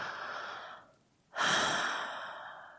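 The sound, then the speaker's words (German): Deep, slow breaths: a long airy exhale fades out, a brief quiet pause follows, then another full breath swells strongly and tapers off, soft and unhurried. “Denk an etwas Schlimmes, was du dir angetan hast und dann nimm mal drei, vier tiefe Atemzüge.”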